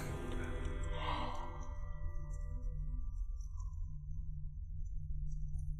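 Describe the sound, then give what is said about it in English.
A small breath, heard as a soft, brief sigh-like exhale early on, over a steady low hum. The rest stays quiet. “Oh, that little breath.”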